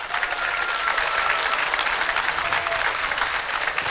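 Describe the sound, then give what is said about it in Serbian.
An audience applauds an orchestra and performers at the end of a song concert at Ilidža. Dense, continuous clapping from a large crowd holds at an even, full loudness throughout. “Hvala svim izvođačima, hvala vam sjajnom orkestru i jedan veliki aplauz iza njih.”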